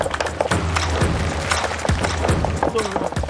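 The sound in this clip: A knife chops garlic with sharp, irregular knocks, a few close together and others spaced apart, while voices talk over the chopping.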